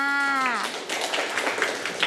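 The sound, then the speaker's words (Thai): Children clapping for a classmate in class after the teacher praises the child's answer: a dense, steady patter of many hands clapping together for about a second and a half, following a brief tone at the start. “เก่งมากค่ะเด็กๆปรบมือให้เพื่อนค่ะ”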